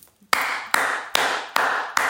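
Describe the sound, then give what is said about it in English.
Five sharp hand claps at an even, steady pace, each one a crisp loud snap trailed by a sustained bright wash of noise that lasts until the next clap. “Clap. No, put it like this. I'm clapping for me today.”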